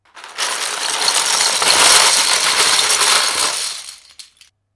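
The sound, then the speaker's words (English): Plastic Lego bricks tumble out of their box in a dense, continuous clattering rattle that builds quickly, stays loud for a few seconds, then thins out into a few last scattered clicks before silence. “It's the sound of Lego. It's being let loose from its box and it's ready to be carefully constructed into an almost infinite number of creations.”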